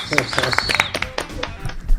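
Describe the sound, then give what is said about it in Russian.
Live applause from an audience at a New Year project launch: scattered sharp claps mixed with voices and cheering, uneven and moderately loud throughout. “Это были живые аплодисменты, это не запись.”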